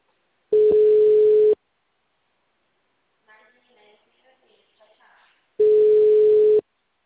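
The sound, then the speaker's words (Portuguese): Telephone ringback tone while a call is being placed: two steady one-second beeps about four seconds apart, with faint muffled sounds in the quiet gap between them. “Tá bom, amigo, vou te ligar.”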